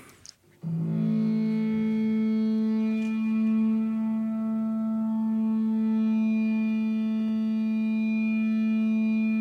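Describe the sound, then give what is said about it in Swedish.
Sustained audio feedback added to a music recording: a loud, steady droning tone rich in harmonics starts abruptly after a brief onset and holds almost unchanged for about nine seconds. “Vi slängde på lite rundgång i typ måndags också faktiskt, som låter ungefär så här.”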